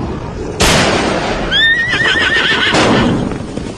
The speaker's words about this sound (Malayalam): രാജാജി കുതിരയെ ശരവേഗത്തിൽ ഓടിക്കൂ